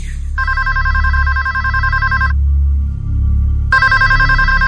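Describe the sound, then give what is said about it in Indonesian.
A telephone rings in two long bursts of loud, trilling electronic ringing with a pause between them. A steady low hum runs underneath throughout. “telepon itu berbunyi lagi. Aku yang mengangkatnya lagi.”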